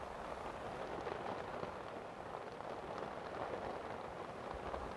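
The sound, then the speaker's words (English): Rain falls on a shed roof in a dense, continuous patter, quiet and even throughout with no pauses, and no one speaks. “I wonder if you can hear the sound of rain on the roof.”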